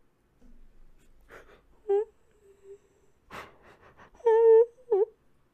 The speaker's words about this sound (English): There was no answer, but the sobbing continued.